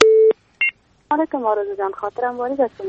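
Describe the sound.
Telephone connection tones open a call into a radio phone-in. A steady tone is followed by a short, high double beep, then a voice starts talking over the line.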